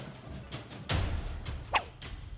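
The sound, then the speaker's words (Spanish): A whip lash strikes someone's back: a heavy whooshing swing lands with a dull thud, followed by a sharp crack among fainter swishes. “Alguien me golpea por la espalda con un látigo. Siento que mi piel arde.”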